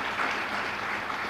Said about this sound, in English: Let's everybody give him a round of applause.